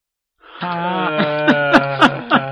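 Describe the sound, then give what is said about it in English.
A heavy, low-pitched vocal groan, drawn out and resonant with a moaning, almost cow-like quality, swells in a few pulsing bursts toward the end. “Not the emails. It's just a heavy groan.”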